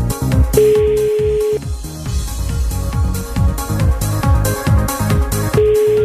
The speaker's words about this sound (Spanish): Buzón de voz. La llamada se escucha.